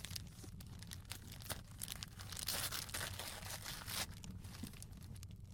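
Paper tears and crinkles as a gift, a card game for couples, is unwrapped, with steady rustling broken by sharper ripping bursts over a low hum.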